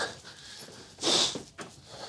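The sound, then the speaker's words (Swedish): An angry dog gives a few rough, breathy huffs and pants. The loudest is a short, harsh snort-like burst midway, followed by softer breaths. “Oj, vilken arg hund.”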